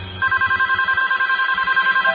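A telephone rings with a steady, rapidly warbling electronic tone that sounds alone and continuously for about two seconds.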